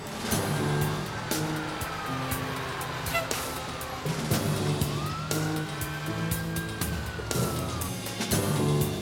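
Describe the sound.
A fire engine siren wails as the truck heads to a house fire, rising and falling in long, slow sweeps over a steady rumble of engine and traffic.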